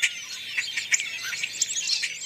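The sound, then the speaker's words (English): Starlings calling as they feed on fruit with robins in winter: a busy stream of high chirps, whistles and squeaks, fairly faint and continuous, with no voices. “Sometimes other fruit-eating birds, such as these starlings, accompany them.”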